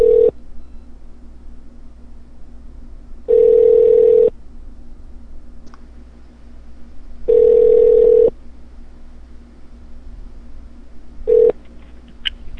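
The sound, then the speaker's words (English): Ringback tone on a call to a hotel room extension: steady tone pulses of about a second each repeat at regular intervals over a low hum, with silence between them. “Please hold on while I try that extension.”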